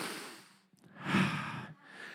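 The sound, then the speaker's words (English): A church audience takes a deep breath together, a soft airy rush of inhaling and exhaling that swells and fades a few times. It is faint, with no talk over it. “Everybody, take a deep breath with me.”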